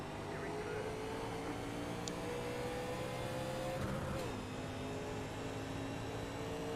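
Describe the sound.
Engine roar of race cars accelerating at a green-flag start: a loud, steady, dense drone with whining harmonics that shift slightly in pitch throughout.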